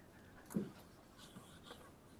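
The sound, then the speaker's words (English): A pen writes mathematical notation on paper, giving a few faint, short scratching strokes in an otherwise quiet moment. “Let me just write explicitly, otherwise I get confused.”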